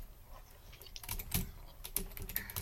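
Quick clicks of typing on a computer keyboard come in short irregular bursts of keystrokes, with no voices.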